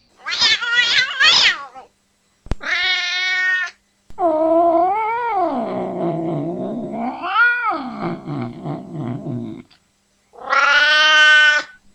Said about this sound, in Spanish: Gato asustado. Gato enojado.